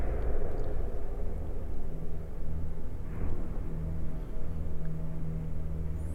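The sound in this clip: A campfire's flames flare up in a steady, broad roar with a low rumble underneath that holds without a break from start to finish.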